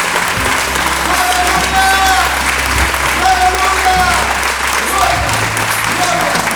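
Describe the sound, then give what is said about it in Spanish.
Applause from an audience in a church worship service, loud continuous clapping that stays even throughout while voices speak and call out over it. “Denle ese aplauso al Señor. ¡Que se lo pongamos!”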